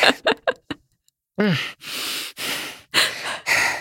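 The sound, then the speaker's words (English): A voice imitates heavy, out-of-breath panting for a character straining to help another climb a building: several quick sharp huffs, a pause, then a voiced gasp and a run of long, ragged breaths. “I'm imagining Squash is like massively out of breath, having to help Zoltana like climb a building.”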